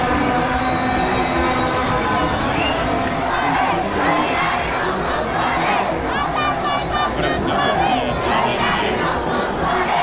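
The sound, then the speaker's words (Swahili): Tractor football club fans celebrate a victory in the streets of Tabriz, Iran, with a dense, loud, unbroken roar of cheering, shouting and chanting voices, many people yelling at once throughout. “wakazi wa mji wa Tabriz kaskazini magharibi mwa Iran ambako ni makao makuu ya watengeneza macheto wa Iran walijitokeza mitaani kwa mbwembwe vifijo na hoi kusherehekea ushindi wa Teraktor”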